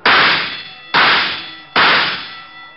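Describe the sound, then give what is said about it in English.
Three metallic clangs ring out as shots strike bullseye targets at a shooting gallery. Each hit is bright and loud and fades over nearly a second before the next one lands, with no voices. “Hey, that's pretty good shooting. Think nothing of it. Just three more bullseyes and you win a doll.”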